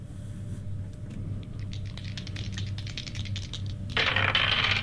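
Dice rattle and clatter for a nature check in a tabletop role-playing game: many quick, light clicks patter across the surface, ending in a louder, denser burst of clattering.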